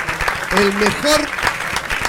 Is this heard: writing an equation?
no